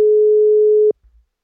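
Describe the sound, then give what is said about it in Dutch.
A single steady ringback tone sounds while calling someone on the phone. It is a plain, even, mid-pitched hum lasting just under a second, then it cuts off and a faint low rumble follows. “Laat ik hem eens even bellen.”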